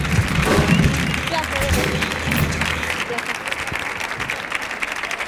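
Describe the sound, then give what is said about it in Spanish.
Audience applause welcomes a guest coach onto a stage, with dense, steady clapping and crowd noise that stays loud and fairly even throughout. “Fuerte el aplauso, por favor, para Juan Díaz, que va a subir aquí a charlar un poquito con nosotros.”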